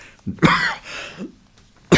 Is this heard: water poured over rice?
no